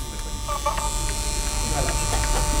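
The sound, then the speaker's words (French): Steady mechanical hum and whir of an Impex Nagra VPR 5 recording machine running with its cover open. A constant loud buzz with tonal overtones carries faint, intermittent chirping noises on top. “Alors ça, c'est un appareil ouvert dont on entend complètement le bruit. Le couvercle empêche le bruit de sortir.”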